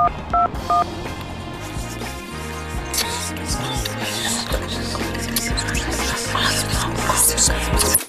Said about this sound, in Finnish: Mä soitan nyt saman tien Pirkolle.